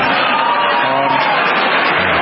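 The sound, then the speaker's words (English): Republicans in the audience clap and cheer during a speech, a brief, loud, dense burst of crowd noise that holds steady throughout. “Republicans are clapping because he has no more campaigns to run.”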